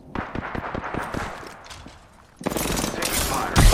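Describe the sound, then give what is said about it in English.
Charged-up rifle fire in a video game: a rapid burst of repeated shots, loud and fast. After a short lull, a dense, loud burst of noise follows. “Fire. I don't like it. It's a charged up rifle.”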